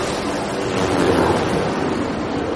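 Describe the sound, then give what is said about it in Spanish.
Ocean waves break against a rocky crag in a steady, roaring wash of surf that swells slightly in the middle. No voices are heard. “Las olas chocan contra su cuerpo que está junto al peñasco. Mira hacia el cielo impotente y las olas siguen rompiendo en él.”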